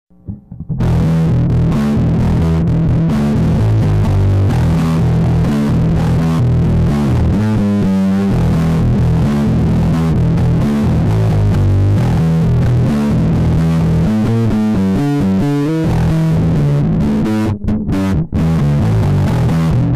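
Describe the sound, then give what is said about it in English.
A bass guitar runs through a mellow, droney, intense fuzz pedal modeled on an old Muff-style circuit. Thick, saturated notes play continuously and loudly for twenty seconds, with no voices. “Just a really kind of mellow, droney, intense sounding fuzz on a bass. But anyway, let me get that over to you guys and you can take a listen.”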